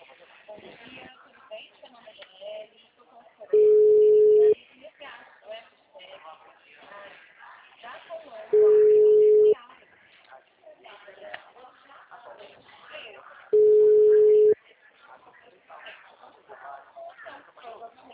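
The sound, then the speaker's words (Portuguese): Phone call tones sound as a call goes to voicemail: three steady, mid-pitched beeps, each about a second long and spaced roughly five seconds apart, while people keep talking throughout. “liguei duas vezes, deu caixa postal”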